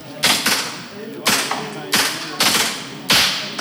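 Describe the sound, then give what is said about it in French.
Paintball guns fire paint balls at a police shooting stand, about six sharp, loud snapping shots in an uneven rhythm, each followed by a brief decay. “Sur ce stand, on entraîne le tir avec des petites billes de peinture, qui est l'équivalent de nos armes de service, mais pour l'entraînement, juste avec des billes de peinture.”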